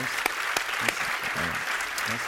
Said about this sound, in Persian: مرسی، خیلی ممنون، تشویقشون کنم.